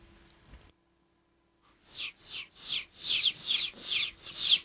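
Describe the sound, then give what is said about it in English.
Chicks cheep on a farm in a rapid, steady series of short, high, down-sliding peeps that start after a brief silence and grow louder toward the end. “We're now at the farm. Yes, I know. Where are the chicks? You deaf? No. You're hearing them right now.”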